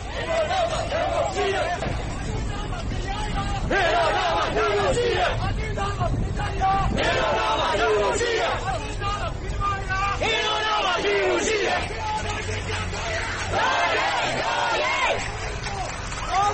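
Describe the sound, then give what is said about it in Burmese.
Protesting youths in Yangon chant slogans in support of Mandalay: loud, continuous shouted chanting from a large crowd over a constant layer of crowd babble. “ရန်ကုန်ကဆန္ဒပြလူငယ်တွေကမန္တလေးကိုအားပေးတဲ့ကြွေးကြော်သံအနေနဲ့ကြွေးကြော်ဆန္ဒပြခဲ့ကြပါတယ”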